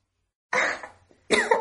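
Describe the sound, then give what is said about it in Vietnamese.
A woman coughs twice after choking on water, in two harsh, breathy bursts separated by a short gap, with no other sound around them. “Cô ôm lấy cổ mình, sắc mặt bởi vì ho mà trở nên ửng hồng.”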